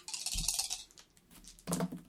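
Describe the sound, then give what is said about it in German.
Dice rolled during a board game, heard as faint rattling and clattering in two short bursts with a quiet gap between them. “Würfel mal.”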